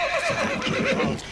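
A horse named Düldül neighing: a loud, shrill whinny with a quavering, wavering pitch, sustained for over a second with a rough, breathy texture beneath.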